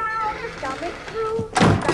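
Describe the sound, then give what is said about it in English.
A closet door is shut with a short, dull thunk near the end. A voice talks beforehand, and the door impact stands out as the loudest moment. “Then he takes the coat and shuts the closet door.”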